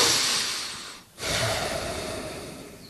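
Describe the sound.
A voice imitates a deep, snorting breath: a long, rough rush of air, a brief silent gap, then a second sustained breath that slowly trails off.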